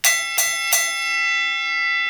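A boxing ring bell ends a round, struck three times in quick succession. Each bright metallic clang rings on with a long sustained decay.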